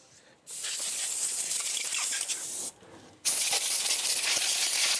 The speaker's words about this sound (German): dann jetzt hier die Luftdruckpistole nehmen. Und ihn abziehen, links. So, dass die Haut ein bisschen abzieht.